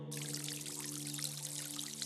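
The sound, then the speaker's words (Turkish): Water pouring in a steady, continuous rush that begins abruptly and carries on throughout, with a sustained low tonal hum underneath. “sevtilima su sesi, dünyanın ortak sesi.”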